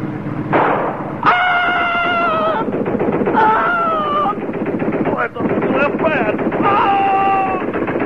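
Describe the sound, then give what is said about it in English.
Rapid machine gun fire in a film scene, heard as loud, dense automatic bursts with wavering high-pitched tonal cries over the shooting. “Nuts with that machine gun.”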